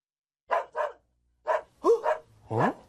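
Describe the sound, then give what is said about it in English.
A dog barks six times: two short barks, a pause, then four more, the last one longer and lower. The barks are moderately loud with quiet gaps between them. “Doggy? Oh, doggy. Doggy, doggy.”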